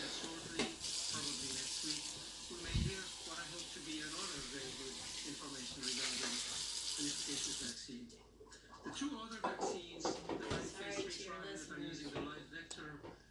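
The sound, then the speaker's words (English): Water runs in a sink while dishes are washed, a steady hiss beneath continuous talking, with occasional faint clinks and bangs of plates. “Sorry if you hear plates banging in the background. My mom's doing dishes.”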